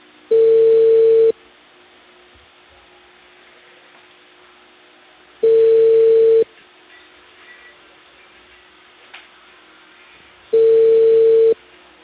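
Telephone ringback tone while a call is placed in Peru: three loud, steady one-second beeps, spaced about four seconds apart, with quiet line hiss between them.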